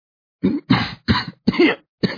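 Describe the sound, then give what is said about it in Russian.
A man, a military major held bound, coughs five harsh, raspy times in quick, uneven succession, loud and alone with no speech. “Майор закашлялся.”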